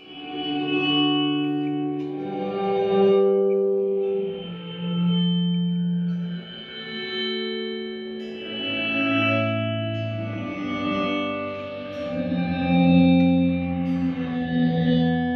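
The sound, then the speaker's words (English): A guitar sounds through a digital pedal with a weird, metallic echo effect, playing a run of sustained, ringing notes with bright overtones and continuous, moderately loud reverberant tails. “It's almost like metallic. Okay, so it's got an echo in it. Great for doing rockabilly stuff.”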